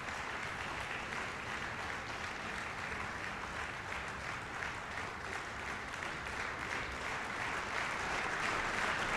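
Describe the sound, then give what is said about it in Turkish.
Applause from backstage during a stage concert: a steady, even wash of clapping that holds at a constant moderate level throughout, with no voices over it. “Kulisten de epey alkış sesi geliyor bu arada.”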